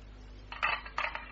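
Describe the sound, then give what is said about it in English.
Metal keys clink and jingle as they are tried one after another in a lock, making a few short, bright rattling bursts separated by brief pauses. “Not that one either. No, these are the only keys”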